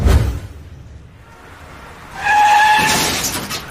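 Car crash involving a black car on an evening drive home: a loud low impact at the start fades away, then a sustained high screeching tone over a broad rushing noise rises and holds.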